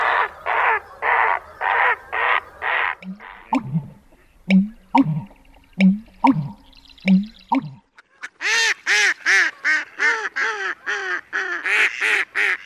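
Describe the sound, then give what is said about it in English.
Marsh bird calls from great egrets, American bitterns, marsh wrens and black terns play in sequence: a row of harsh, evenly spaced croaks, then low pulsing notes with short clicks, then rapid high-pitched chattering. “great egrets, American bitterns, marsh wrens, and possibly the rare black tern can be seen. Here are a few of the calls you are likely to hear.”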